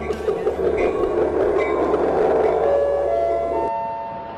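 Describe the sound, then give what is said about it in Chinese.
Train running on rails, a loud, dense rumbling roar that stops near the end, followed by a brief clear melodic tone fading out. “旅客朋友们，欢迎搭乘校园新干线。本次列车从江苏大学出发，开往全国各大高校。”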